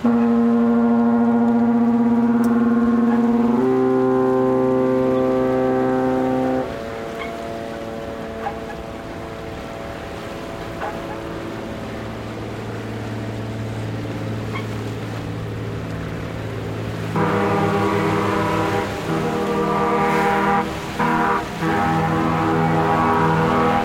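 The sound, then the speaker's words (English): Waves lapping at a creaking wharf on Vancouver Harbor as the Seabus ferry crosses, heard as sustained low tonal drones that shift in pitch every few seconds, turning louder and busier near the end. “Waves lap against a creaking wharf while the Seabus ferry crosses Vancouver Harbor.”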